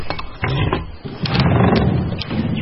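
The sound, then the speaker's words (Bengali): A wooden bolt on a front door is drawn open: a few sharp wooden clicks and knocks over a rough, grinding scrape that continues steadily, fairly loud. “Sayan গিয়ে কাঠের খিলটা খুলে দিল।”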